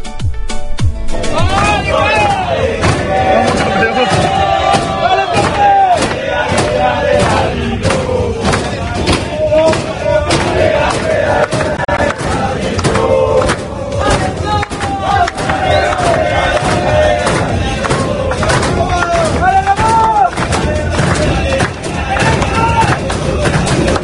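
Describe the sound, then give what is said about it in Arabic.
Paraguay's team celebrates in the dressing room, with many voices chanting and shouting together over a steady, loud rhythm of claps and thumps throughout. “نذهب الآن إلى الفرحة في غرف الملابس الباراغواي.”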